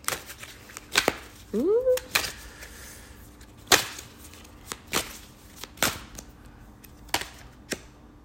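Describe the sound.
Playing cards being handled: sharp snaps and slaps spaced irregularly, some louder than others, with soft rustling between them.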